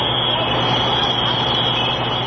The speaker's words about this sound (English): That's the sound of the emergency locators going off as Boston firefighters are doing battle with last night's four-alarm blaze in a Chinese restaurant.